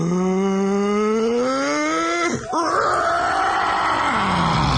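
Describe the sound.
A voice imitates a large dragon's enormous fiery breath with a long, growling groan that climbs in pitch, breaks abruptly midway, then resumes and slowly sinks.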